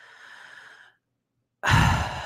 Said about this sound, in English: inhale and exhale and whisper on this microphone.